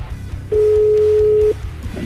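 A telephone call rings out as a single steady mid-pitched ringback tone that lasts about one second, starting and stopping abruptly over low background hum.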